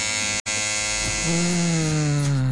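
An electric shaver or hair clippers buzz loudly and steadily in a barbershop. The bright, even drone cuts out briefly near the start, then resumes with a lower hum joining in.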